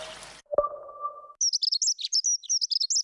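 Dunnock song: a rapid, high-pitched warble of short chirping notes, loud and continuous, coming in after a brief steady low tone.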